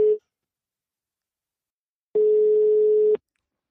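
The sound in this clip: A telephone ringback tone plays while a call connects: a steady single-pitch beep lasting about a second, after the brief tail of an earlier beep and a pause of silence.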